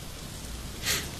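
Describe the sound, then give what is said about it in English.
Rain falling as a steady, soft hiss that stays even throughout, with a brief brighter swish near the end. “Still raining”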